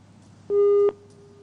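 Telephone line tone of an incoming call, a single steady mid-pitched beep lasting under half a second, with quiet before and after.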